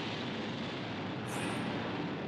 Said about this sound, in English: Missile ready for launch, Lieutenant. Very well. Now.